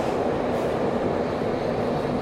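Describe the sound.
An underground metro train gives a steady, loud rumbling roar that stays even throughout, with no separate clacks or squeals.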